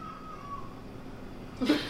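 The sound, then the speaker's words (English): A cat howls in a short, harsh yowl that bursts out near the end, after a faint, thin, wavering tone. No one speaks. “Sorry, my cat is howling.”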